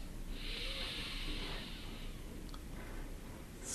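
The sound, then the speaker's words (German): A person breathes in deeply during a guided breathing exercise, producing one long, soft, airy hiss that lasts about two seconds before fading, with quiet background noise and no talking. “Wir fangen an mit den Atemzügen und 1 einatmen.”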